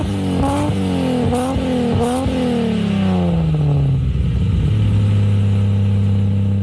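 A car is spinning: its engine revs hard in several sharp rising and falling surges with high squealing bursts, then the pitch sinks and settles into a steady, loud drone.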